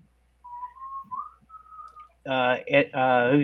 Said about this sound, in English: Yeah, I hear whistling in your background there.